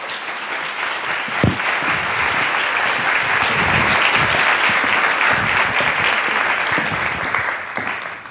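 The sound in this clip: Sustained audience applause greets an author introduced to give a talk on her new book, with dense, even clapping that continues loudly for several seconds before thinning at the very end.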